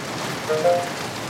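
Steady rain falls in a dense, even hiss of drops, without pause for the short stretch.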